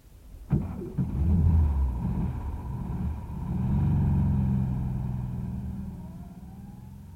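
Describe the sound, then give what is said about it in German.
A car drives, probably in Paris: a sharp knock near the start, then a steady low engine rumble that swells and eases, with a faint rising whine toward the end. “Und fahr dann nicht über die Champs-Élysées. Aber warum denn nicht? Wir sind doch immer so gefahren.”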